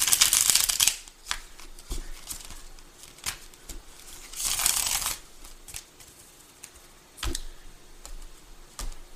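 Tarot cards being shuffled before a card is drawn: two longer riffling bursts, with a few shorter shuffles and soft taps and clicks in between. No voices.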